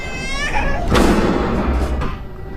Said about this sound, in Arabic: سمعت صوت طفل أو بنت صغيرة بتستغيث أو بتستنجد.